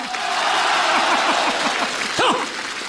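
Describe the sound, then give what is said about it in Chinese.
An audience applauds during a Chinese comedic crosstalk performance, a steady roar of clapping. Brief voice sounds rise over the clapping partway through. “那边的朋友掌声不够热烈呀。这边朋友跟他起个哄啊”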